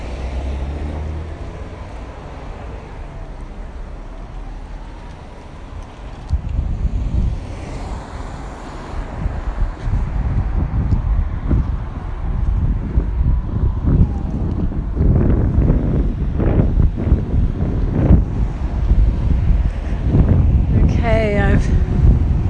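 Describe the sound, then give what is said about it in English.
Wind gusting against a microphone while an iPhone case flaps back and forth; quiet at first, then low rumbling buffets and flutters build and stay loud to the end. “case on my iPhone flapping backwards and forwards, trying to protect me from the wind. It may be making more noise than is than the wind would.”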